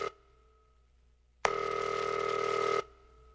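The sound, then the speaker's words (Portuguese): A telephone dialing out on a call: a brief tone at the start, then silence, then a single loud, steady buzzing ring tone lasting over a second before it stops. No talking. “Pera aí. Tamo ligando pra ela.”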